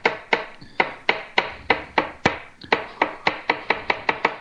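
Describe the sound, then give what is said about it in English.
A knife slices through stemless mushroom caps laid cap-side down for meatloaf, cutting thin slices: many crisp, even chops in a quick, steady rhythm with a brief hitch partway through, and no talk. “slice right through them. I'm trying to make nice thin slices. But it's okay if that's not the way it turns out, because it's going into a meatloaf.”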